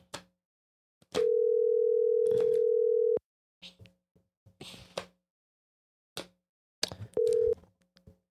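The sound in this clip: Telephone ringback tone of an unanswered call: one steady tone of about two seconds, then scattered soft clicks and small noises, then a shorter burst of the same tone near the end.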